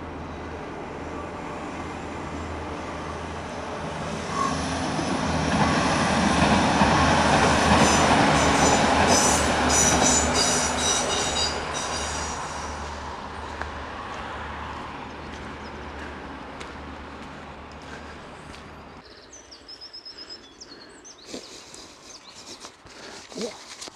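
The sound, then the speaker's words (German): A train passes by on rails: a rumbling roar builds, peaks loudly for several seconds with rattling and squealing wheels, then fades, leaving quieter scattered clicks. “Und da kommt der Zug zurück.”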